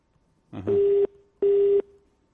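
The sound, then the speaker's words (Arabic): Busy tone after a phone call drops: two steady, mid-pitched beeps of equal length, separated by a short gap and sounding alone. “انقطع اتصال من عندك، حاول ولا بكره ان شاء الله.”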